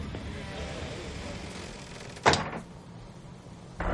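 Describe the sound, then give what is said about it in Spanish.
A door is opened by hand through a handkerchief at a closed café where a body lies, in a 1997 crime film scene. A sharp latch clack rises out of quiet background noise, and another brief burst comes near the end. “abre la puerta protegiendo su mano con un pañuelo.”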